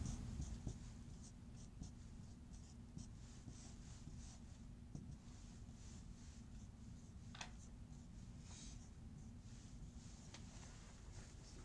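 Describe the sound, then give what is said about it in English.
Handwriting while working through matrix math: soft, continuous scratching strokes of a pen on paper, faint and steady over a low background hum, with no talking. “Okay, so we write that.”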